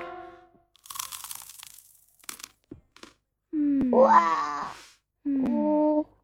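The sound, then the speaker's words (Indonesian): Food eaten hungrily: scattered crunchy, crackling bites, followed by two loud, drawn-out groaning, moan-like tones. “Semua makanan kesukaannya ada di meja. Apis menyantap makanan dengan lahap.”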